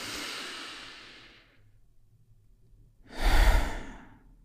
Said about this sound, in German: Und weil es so schön ist, nehmen wir noch einen zweiten tiefen Atemzug.